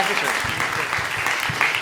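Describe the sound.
Applause from an audience thanking a guest: steady, dense clapping that fills the whole clip, with voices talking over it.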